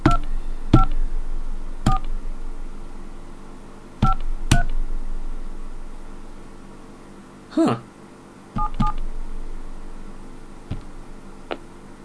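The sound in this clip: Telephone keypad dialing tones ring out as someone places a call to an 866 customer service number: a few short, separate beeps at irregular intervals over a faint line hiss.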